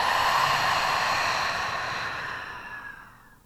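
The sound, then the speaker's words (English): A deep, easy exhale, a soft breathy rush of air that starts full and fades gradually to near silence over a few seconds. “take a deep breath in. And an easy exhale.”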